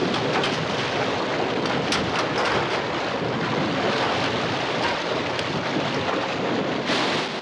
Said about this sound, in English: The Compass Rose picks up speed, racing over the waves.